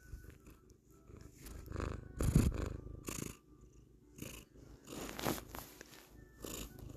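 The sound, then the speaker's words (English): A cat purrs in its owner's lap at home, a low, continuous rumble that runs through the whole stretch, broken by a few louder rustling bursts. No one speaks over it. “I don't know if you can hear her purring.”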